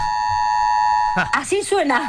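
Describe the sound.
A building alarm sounds in a hallway as a steady, piercing electronic tone that holds without a break, with a person starting to talk over it partway through.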